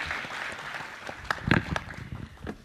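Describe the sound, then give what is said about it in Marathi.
Applause from an audience at a live stage program honoring a performer, a dense, steady patter of many hands clapping with a few sharper claps standing out. “जोरदार टाळ्या होऊन जाऊ देत अंकिता जोशी यांच्यासाठी.”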